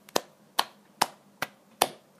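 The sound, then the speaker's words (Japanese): Hand claps from a single person, about six sharp, evenly spaced slaps at a slow, steady pace, quiet and alone with no talk. “今日はパチパチと言わずちゃんと手を叩きました。”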